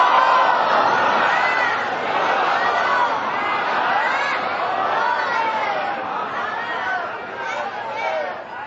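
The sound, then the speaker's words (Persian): An audience chants salawat together during a contest, many voices merging into one continuous, swelling murmur of overlapping chant with no single voice standing out. “من مسابقه بذارم ببینم صلوات خانم‌ها بیشتر صداش بود یا صلوات شما. یه صلوات مشکی بفرستی ببینیم جناب.”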